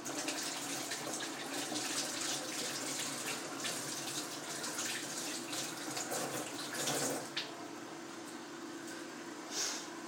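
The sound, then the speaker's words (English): Water runs steadily from a tap while the washing is being done, a soft, constant rushing hiss broken by a couple of slightly louder splashes near the end. “Just doing the washing, getting it done.”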